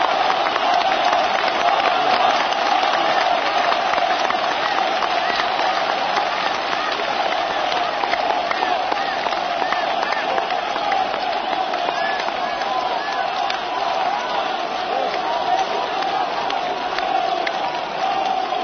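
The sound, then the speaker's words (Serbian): Stormy applause and crowd noise greet President Slobodan Milošević at a rally in Niš, a dense, loud, unbroken roar of clapping that holds steady for the whole stretch. “izlazi predsjednik Republike Slobodan Milošević. Pozdravljen burnim aplauzom, predsjednik Milošević obratit će se okupljenom narodu.”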